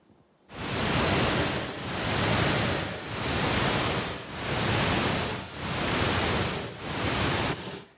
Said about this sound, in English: So that sound is actually at the same burst frequency as your brain waves when your brain is in deep sleep.